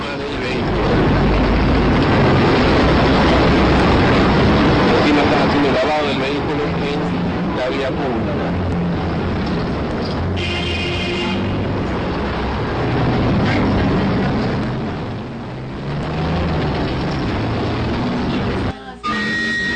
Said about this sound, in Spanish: Acá está nuevamente sonando este vehículo y tiene 90 decibeles.